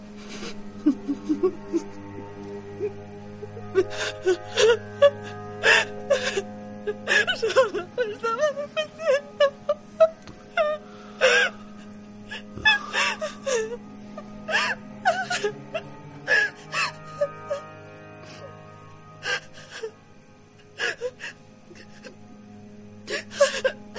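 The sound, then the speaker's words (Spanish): A woman crying on the floor at home, sobbing in broken bursts of whimpers, wails and sharp gasping breaths, with pauses between the outbursts. “En la casa llora en el suelo. En la comisaría llora.”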